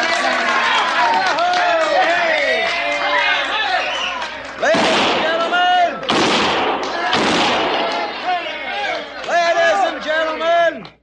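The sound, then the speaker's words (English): Six-gun gunshots fired inside a brightly lit saloon in Virginia City: a few sharp, loud cracks burst out over a noisy crowd of chattering, shouting voices. “kindly refrain from shooting six guns in the establishment, because the next man that does it is going to get thrown out on his saddle”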